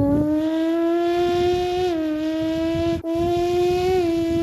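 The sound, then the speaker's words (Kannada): A child's voice imitates a racing motorbike: a sustained, buzzing engine-like drone at a steady pitch with a few slight dips and one brief break partway through, loud and continuous throughout. “ನಾನು ಈಗ ಮಾಡುತ್ತಿರುವುದು mimicry. Race bike”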